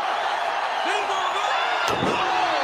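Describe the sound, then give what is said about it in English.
A wrestler's body slam in a wrestling match lands as a single heavy thud over continuous loud crowd noise, with voices mixed in. “Bubba with a slam.”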